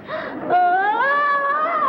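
Wailing, whimpering cry coming from a baby stroller, a single drawn-out tone lasting about two seconds that rises slightly in pitch, heard alone without talk.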